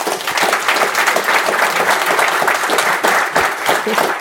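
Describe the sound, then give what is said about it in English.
An audience applauds to welcome a guest on stage at a programming conference talk, with dense, loud, sustained clapping that holds steady throughout. “Welcome, Stacy. Give her a big hand.”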